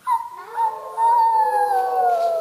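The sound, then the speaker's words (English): People imitate a wolf howl with their voices: two brief rising yelps, then a long, sustained wavering tone that slowly slides downward in pitch until the end. “And the wolf howled in the distance. Do you all want to give me your howl again?”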